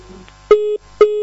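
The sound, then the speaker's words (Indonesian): Telephone busy tone after a caller's line drops: two short, steady beeps of the same pitch, evenly spaced, with the second cut off at the end. “akhi Najib di Banyumas terputus sambungan teleponnya”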